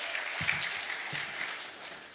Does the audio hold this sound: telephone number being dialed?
no